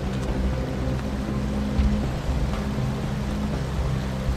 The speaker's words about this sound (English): She watches as the water of the river flows by.